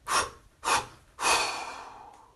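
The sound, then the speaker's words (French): Three forceful exhalations in separate bursts during a breathing exercise, each a breathy rush of air; the first two are short and evenly spaced, the third longer and trailing off, all fairly quiet and without talk. “On maintient poumon plein. Et on expire en trois fois énergiquement.”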